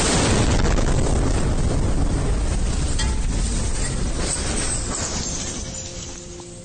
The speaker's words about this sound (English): Multiple explosions rocked the capital city of Kyiv